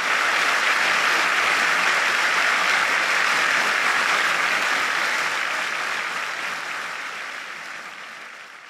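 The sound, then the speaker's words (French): Standing ovation from a concert audience in the stalls after a song, a thick, loud, continuous wall of clapping that gradually fades over the last few seconds. “À la fin de la chanson, tout le parterre se lève et lui offre plus de 20 minutes de standing ovation.”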